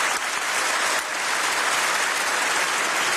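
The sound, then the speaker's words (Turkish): A standing ovation in the European Parliament plenary for Canadian Prime Minister Mark Carney: loud, dense, continuous clapping from a large crowd, even and unbroken, with no voices standing out. “Carney dakikalarca ayakta alkışlandı.”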